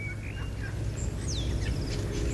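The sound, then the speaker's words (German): A golden oriole sings in spring woodland, giving a few clear, fluting whistled phrases that slide in pitch, fairly faint over a steady low rumble. “Die Goldamsel oder der Vogel Pilo.”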